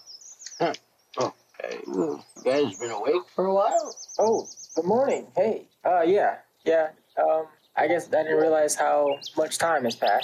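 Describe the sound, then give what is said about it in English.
Birds chirp in the morning, with brief high tweets surfacing now and then beneath steady conversation between several people. “you hear some birds chirping.”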